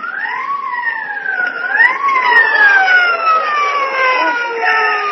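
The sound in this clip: A police car siren wails loudly on its own, sweeping up and down in pitch before sliding into long, slow downward glides.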